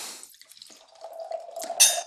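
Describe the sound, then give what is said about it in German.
Wine is poured into a glass: trickling, splashing liquid with a ringing glassy tone that grows fuller as the pour goes on and ends in a brighter splash. No one speaks during it. “Vielleicht schenken wir ein bisschen was ein und gucken mal.”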